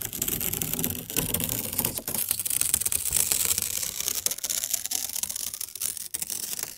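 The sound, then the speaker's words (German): Paper is torn slowly as a soothing trigger sound in an anti-stress art installation. A steady, dense crackling rustle runs alone for about seven seconds, with a few brief dips in loudness. “Langsames Zerreißen von Papier, was man gerne Trigger Sound nennt, kursiert millionenfach im Netz, aber hier perfektioniert von der Künstlerin Anna Witt”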